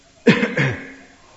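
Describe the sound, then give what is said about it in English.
A person coughs twice in quick succession. The first burst is sharp and loud, and the second is slightly softer and trails away into quiet. “and now I'm coughing. I'm allowed to cough.”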